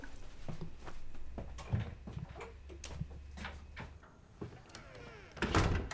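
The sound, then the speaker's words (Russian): A bathroom door being closed, heard as a scatter of faint clicks and knocks, with a somewhat heavier thump near the end. The whole sound is quiet, with no voices. “Закрывает дверь ванной и идет к лестнице.”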